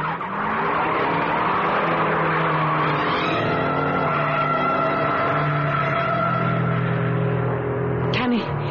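A race car speeds around a track with a loud, continuous engine roar and the scrubbing squeal of skidding tires, steady throughout with a brief sharp burst near the end.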